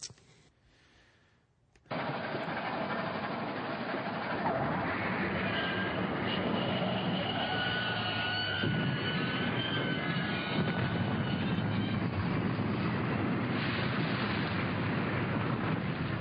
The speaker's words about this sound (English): that was my train wreck sound.